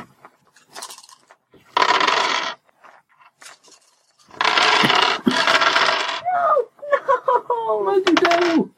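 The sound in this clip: Dice rolling for a tabletop role-playing game: a few bursts of hard clattering and rattling, separated by short pauses, with voices audible toward the end.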